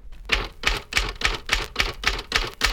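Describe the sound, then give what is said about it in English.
Typewriter keys are struck sharply one at a time in a typing drill, giving a steady, evenly spaced run of crisp, loud clacks with no talk over them. “Before striking the key, slightly raise each finger, then depress sharply, releasing the key quickly as follows.”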